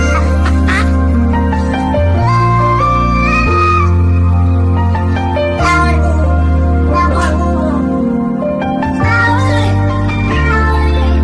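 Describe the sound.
Meows from several different cats, auto-tuned and stitched into a pop-style song: loud, melodic pitched cries ride over steady low chords and a beat, shifting note by note throughout.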